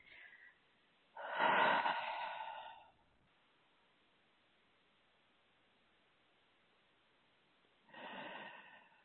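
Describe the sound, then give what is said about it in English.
A deep breath taken on request: a long, breathy rush of air lasting about two seconds, then quiet, then a second shorter breath near the end. The sound is soft and stands alone, without talk. “So just go ahead and take a deep breath for me.”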